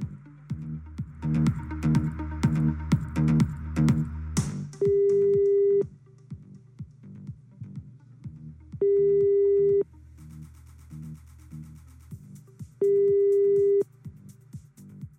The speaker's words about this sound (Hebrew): ואני חייב לחייג כדי לשמוע אם זה קשר או לא